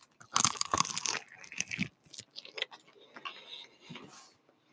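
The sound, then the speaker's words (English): Crispy bite into fried chicken with a rice-flour coating: one loud crackling crunch, followed by a few softer, irregular chewing crunches with short gaps, heard alone without talk. “Let me see if I can get a ASMR crispy bite into this.”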